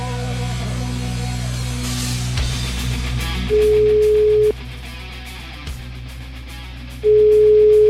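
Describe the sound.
A telephone ringback tone sounds while calling someone back: two steady, mid-pitched one-second tones separated by a long pause, clear above faint line noise.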